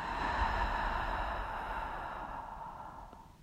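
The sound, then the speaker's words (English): A deep breath during a guided breathing exercise: one long, steady, breathy rush of air out through the mouth. It is fairly quiet and fades slowly toward the end. “into your nose and out through your mouth. You inhale deep, exhale.”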